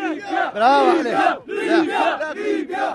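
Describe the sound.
A crowd of young men in a main square in Libya cheers an old revolutionary returned from exile, loud continuous rhythmic shouting and chanting in waves.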